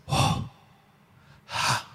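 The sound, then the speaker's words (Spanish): A human voice imitates an exhaled breath with two soft, airy huffs about a second and a half apart, separated by near silence. “eso en hebreo es como un aliento, como cuando tú haces,”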